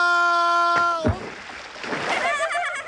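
A splash as someone falls bottom-first into icy water: one heavy burst of water noise at a single moment, followed by a churning, sloshing wash, with a sustained tonal sound just before the plunge.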